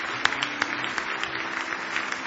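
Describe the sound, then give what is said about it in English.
A church audience giving the Lord a hand clap of praise: sustained applause with several sharp individual claps standing out from the dense patter. “Oh, give the Lord a big hand clap of praise if you love Him.”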